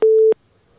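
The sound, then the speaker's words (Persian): A single loud, steady beep of a telephone busy tone after a call is cut off. It lasts about a third of a second at one pitch, followed by faint line noise. “فکر کنم که تماسشان قطع شده.”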